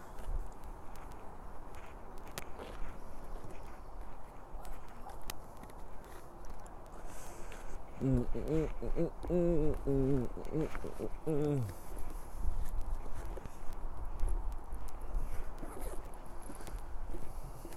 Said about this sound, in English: Okay, alright, I need to get some content. I've been walking without talking.